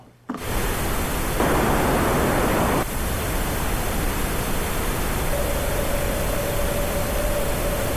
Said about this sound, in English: hear that's just making a single little frequency ring out in the middle because it's a very narrow Q.